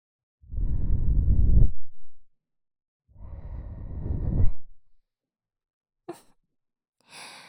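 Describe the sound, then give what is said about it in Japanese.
Soft, breathy blowing into an ear to cool it: two long, steady exhalations of about a second and a half each, then a couple of brief faint rustles. “でもまだお耳あてってますね。ふうふうして冷ましてあげないと。”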